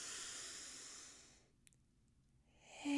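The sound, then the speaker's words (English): A faint, airy inhale through the nose during a guided breathing exercise. It fades into near silence, and a fresh rush of breath begins just before the end. “And get ready to receive the message. We're going to go in through the nose.”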